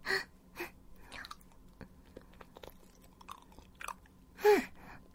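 Person chewing food, with a few soft, crunchy bite-and-chew bursts spaced irregularly over quiet gaps; no talk.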